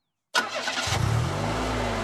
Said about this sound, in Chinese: 高大海的妻子开车在前面带路，郑佩佩和潘月梅在后面开车紧跟。